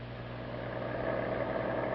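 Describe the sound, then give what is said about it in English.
A car engine drones steadily while driving home from a dance at night. A constant low hum sits under a broad wash of road noise, with no voices. “They were driving home from the dance.”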